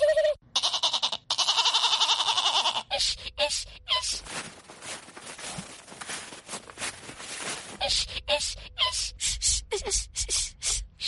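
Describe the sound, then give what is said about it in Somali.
A goat bleats loudly and repeatedly near the start as it is driven into its pen. A stretch of noisy scuffling and a run of short, sharp sounds follow. “Elmo in badan bay isku dayay inuu ariga xerada ku xareeyo, balse waa suurtagali weyday.”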